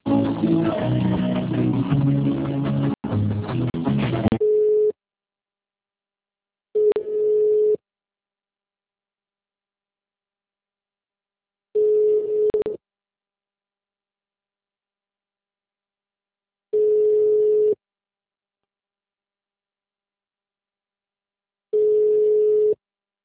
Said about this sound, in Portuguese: aguarde para ser atendido. Transferindo ligação.